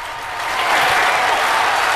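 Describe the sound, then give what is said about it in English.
Applause swells up over the first half second, then holds as a dense, even wash of clapping. “The three terrorists stand and applaud.”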